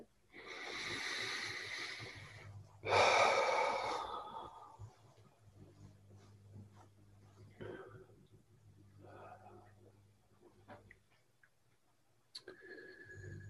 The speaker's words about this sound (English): Now, perhaps taking a couple more deep breaths with the belly.